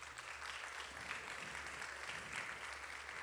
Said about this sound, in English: I don't know if that's clapping for 26 years of her putting up with me or me catching her.